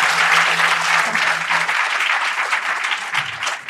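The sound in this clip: Audience applause welcomes speakers to a conversation event: a dense, steady patter of many hands clapping, fairly loud and sustained for a few seconds, with no talk.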